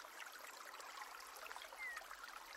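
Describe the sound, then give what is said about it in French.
Water flowing over stones in small white cascades on a warm summer day: a faint, steady, hissing wash of trickling and splashing with no clear breaks. “L'eau coule sur les pierres, formant ici et là de petites cascades blanches”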